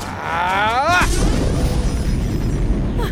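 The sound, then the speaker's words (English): A voice, then an immobilization grenade in an audio drama goes off with a loud blast that turns into a long, heavy roar. “Do something, Strax! Immobilization grenade! Take care to stay out of the blast radius, madam!”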